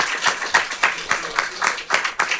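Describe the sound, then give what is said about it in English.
Audience applause at a live recording event, a short burst of clapping with uneven rhythmic hand claps at moderate loudness, with some voices mixed in among the crowd. “Big round of applause for them.”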